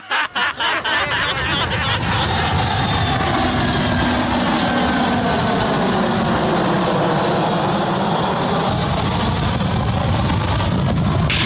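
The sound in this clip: A loud, steady roar from an airplane's engines in flight at altitude, a broad unbroken drone that holds even from start to finish after a few brief bumps at the very beginning.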